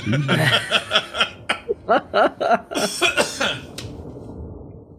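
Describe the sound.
Coughing from someone who has just inhaled a grape: a few harsh, choking bursts tangled with snickering laughter, sharp and uneven, fading into softer breathy sounds at the end.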